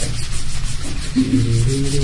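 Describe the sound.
A battle mat rubs against a tabletop in a continuous, rough scraping sound. It is fairly loud and steady throughout, with no voices.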